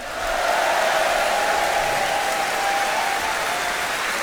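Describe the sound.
Audience applause welcomes Carl Palmer back to the stage before the final piece of a concert: a dense, even wash of clapping that holds steady throughout.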